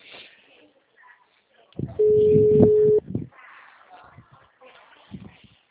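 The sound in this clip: Telephone ringback tone while a call is placed: one steady, low beep lasting about a second, with people talking before and after it.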